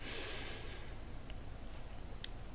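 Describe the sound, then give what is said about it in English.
A deep breath is drawn in during a guided breathing exercise: a soft, steady, airy hiss that rises at the start and carries on evenly for over two seconds, with no talking. “we once again seek to maintain that remembrance of self, and we take another deep breath in.”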